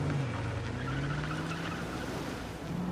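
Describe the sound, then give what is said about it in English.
Car making a U-turn and driving away, heard as a faint, steady engine drone with a low humming tone that holds throughout, without talk. “He gets into the driver's seat. What about us? Just need time. He makes a U-turn and drives away.”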